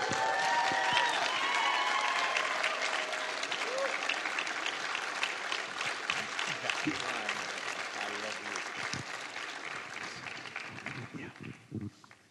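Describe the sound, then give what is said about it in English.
A church audience applauds to welcome a guest speaker at a morning service. Sustained, full clapping from many hands starts loud and gradually thins and fades over several seconds. “So would you stand and help welcome our friend, Michael Dalton.”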